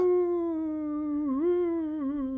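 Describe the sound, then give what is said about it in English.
A long, sustained howl on a fairly steady pitch, rich in overtones, with a brief dip and wobble partway through. It is loud and clear, with nothing else heard. “What's that sound? You hear that? No. It's like a howling on the wind.”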